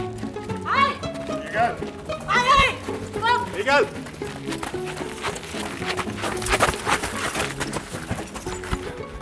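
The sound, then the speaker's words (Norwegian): Running footsteps as a person hurries toward a prison wall, quick rhythmic thuds under music and a man talking. “Nå løper jeg mot muren. Jeg har ikke så veldig god tid, for eh, betjentene hakk i hæl.”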